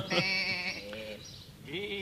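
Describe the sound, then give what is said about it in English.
Sheep bleating in two quiet, wavering calls: a longer bleat first, then after a short pause a second, rising bleat. “those are sheep, aren't they? Yes, yes, I thought they were.”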